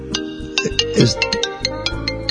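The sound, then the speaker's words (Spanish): A telephone ringing with a melodic ringtone, a loud tune of short repeated notes with a clear rhythmic pulse throughout. “Está sonando el teléfono, lo cual demuestra que estamos en vivo, trabajando.”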